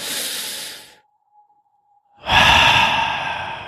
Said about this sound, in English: Yeah, go out there, take a deep breath.